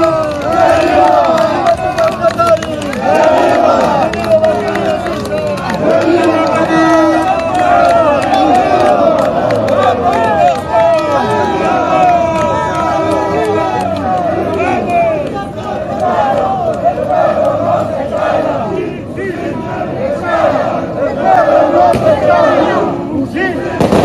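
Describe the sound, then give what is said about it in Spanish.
A crowd of protest marchers, including the Cochabamba delegation, moves in a large march descending toward Plaza Murillo. A dense, loud babble of many voices with shouts and cheering rises above trampling footsteps and holds steady throughout. “El departamento de Cochabamba también es parte de esta marcha multitudinaria que desciende nuevamente hasta Plaza Murillo.”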